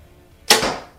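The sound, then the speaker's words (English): A single sharp shot of a 2021 Bear Archery Redemption bow loosing an arrow: a bright crack at mid-clip, then a short whooshing tail that fades quickly, after near silence. “there you have it, the Redemption from Bear Archery 2021. So exciting. I thought the bow shot great. It is a very nice bow”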